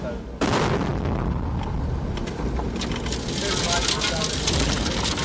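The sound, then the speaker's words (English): An explosion showers metal and sand into a moving Humvee. A sudden loud blast sets off a sustained, roaring wash of noise over engine rumble. “The explosion showered metal and sand into the Humvee, leaving those inside coughing. But the vehicle kept going.”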